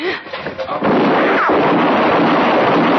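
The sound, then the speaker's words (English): A single loud gunshot during a lamp-lit nighttime standoff, cracking in sharply after a brief voice. It leaves a long, heavy roaring tail that holds at full loudness to the end. “No more! Don't shoot again! Just stand easy, mister. You shot him.”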